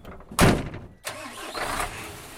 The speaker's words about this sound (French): Après deux heures de travail, le camion s'élance enfin.